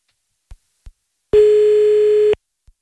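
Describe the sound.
A telephone line tone sounds while a call is being placed: one steady, even tone lasting about a second, preceded by two soft clicks and followed by one more.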